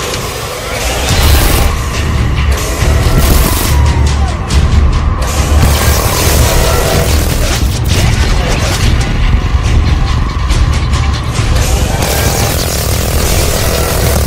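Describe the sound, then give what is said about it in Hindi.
Drama sound effect of missiles being fired and targets exploding: a loud, continuous roaring drone with a heavy low rumble, broken by repeated crashing bursts across the whole stretch. “दो target उड़ा दिए हैं, अब तीसरे की बारी है।”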